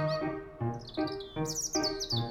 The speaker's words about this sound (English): It's birds singing in the tree.